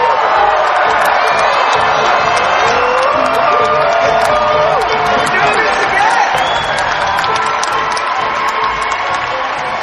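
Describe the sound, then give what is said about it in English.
Live convention crowd at Star Wars Celebration at Disneyland Resort cheering and applauding, a loud, continuous roar of clapping, whoops and shouts that holds steady throughout. “Make some noise, raise your sabers, and put your hands together for your host, Josh Gad!”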